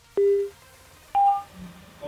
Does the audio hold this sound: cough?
no